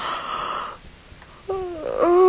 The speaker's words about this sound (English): Oh, I can't stop yawning.